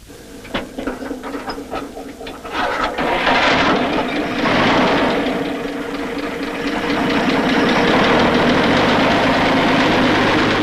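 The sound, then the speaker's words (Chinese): A truck engine is started: a run of irregular clattering bursts as it turns over, then it catches and settles into a loud, steady, rough running rumble that carries on to the end. “车发动了”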